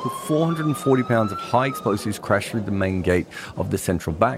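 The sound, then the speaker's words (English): An emergency siren wails in the aftermath of a truck bombing at the Colombo central bank. Its steady tone sits faintly beneath continuous talk throughout. “The noises you can hear are the aftermath of the Colombo Central Bank bombing.”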